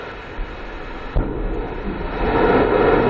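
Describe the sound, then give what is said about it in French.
A rocket lifts off as the Vulcain engine and EAP boosters ignite. A sudden low thump gives way to a deep rumbling roar that grows steadily louder. “Allumage Vulcain. Allumage EAP, décollage.”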